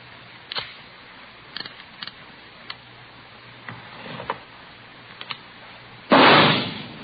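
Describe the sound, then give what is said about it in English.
One loud gunshot comes from a .38 caliber revolver test-fired into a ballistics box in a police ballistics room. Faint scattered clicks come before it, then the sharp blast hits near the end and decays over about a second. “You have just heard a test bullet fired from a .38 caliber revolver found in the possession of a suspect.”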